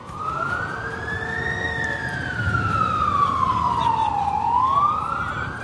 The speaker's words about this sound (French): nous voilà arrivés dans les rues de New York. Hein. Vous entendez cette ambiance que vous connaissez bien.